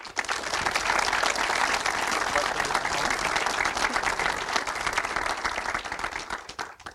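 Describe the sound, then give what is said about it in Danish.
Audience applause welcoming a physicist onto the stage at a live talk: dense, steady clapping that holds for about seven seconds before tapering off at the end. “Men Troels, vil du ikke komme herop til os? Og lad os give ham en hånd.”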